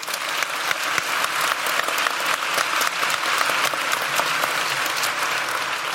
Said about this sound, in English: A warm welcome, please, for Professor Paul Collier.